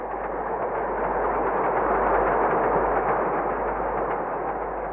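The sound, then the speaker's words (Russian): Train passing on a nearby railway, heard as a continuous, loud, rushing rumble that holds steady for the whole stretch with no clear breaks or voices. “Это поезд? Да. Железная дорога проходит рядом с нами.”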